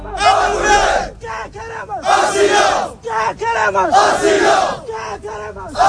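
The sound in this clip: Moroccan migrants chant in unison at a protest camp of improvised shacks on a Ceuta beach, where they are on hunger strike demanding asylum. Several loud, rhythmic bursts of group chanting alternate with brief gaps and single shouted calls.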